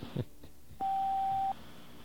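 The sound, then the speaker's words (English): A voicemail recording tone on a federal tip line sounds as one clean, steady beep lasting under a second, alone over a faint hiss after a brief, quiet lead-in. “At the tone, please leave a concise message”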